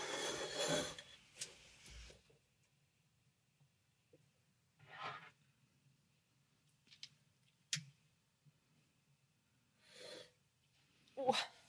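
Rubbing and scraping handling noises as a microphone is fetched and stretched across a table: a few scattered bursts of rustle and friction separated by quiet gaps, mostly faint, with one louder burst at the start.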